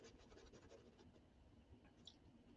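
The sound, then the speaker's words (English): Faint scratchy rubbing of pastel pencils drawing and blending on paper, a soft continuous scrape with a few quicker strokes, very quiet and alone. “that I have the pastel pencils, because I can really like blend this in.”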